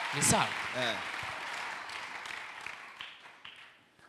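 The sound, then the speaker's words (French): Congregation at a church service applauding to acclaim the Lord: voices call out and cheer briefly at first, followed by continuous soft clapping that gradually fades, all quite faint. “On peut acclamer un peu le Seigneur. Comme ça, c'est bon.”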